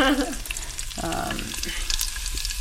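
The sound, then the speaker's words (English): Cumin seeds sizzle in hot ghee as they are swirled in a pan on an electric stove, giving a steady, fairly soft crackling hiss with light stirring and scraping. “Swirling the jeera”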